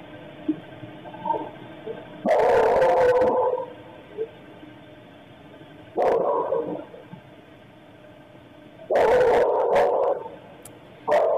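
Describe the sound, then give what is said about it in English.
A dog barking violently during a stabbing attack, heard as three loud, harsh, distorted bursts of barking separated by quieter stretches of low background noise. “And you hear the dog going berserk.”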